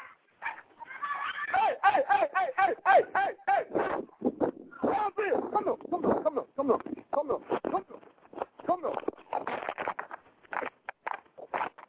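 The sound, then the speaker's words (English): Dog fight in which one dog bites another: many rapid, high yelps and whimpers mixed with sharp barks, coming in choppy bursts with short gaps. “My dog just bit her dog.”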